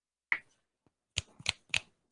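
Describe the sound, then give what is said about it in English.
Finger snaps made to wake someone from a mock hypnosis, a few short, crisp clicks spaced apart by near silence, each one dry and sharp with no ringing tail. “When I snap my fingers, you will wake up feeling like the great new person you are.”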